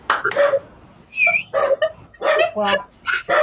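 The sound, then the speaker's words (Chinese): A household dog barks, yips and whines in a few short bursts, mixed in among people talking. “这是卡尔家的狗吗？ 对，卡尔家的狗。刚刚狗反对你的说法”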